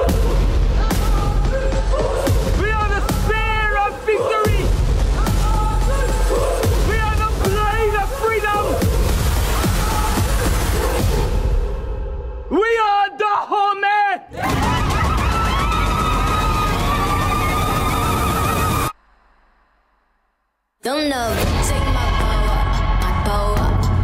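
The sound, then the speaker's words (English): Trailer audio for The Woman King, a historical epic film: loud booming percussion and dramatic music run under voices, with heavy hits throughout. A brief silent break comes near the end before the sound resumes. “All right, so that was the trailer for The Woman King.”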